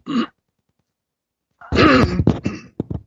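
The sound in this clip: A person clears their throat. A short rough burst is followed by a pause, then a harsh voiced rasp and a few quick throaty bursts.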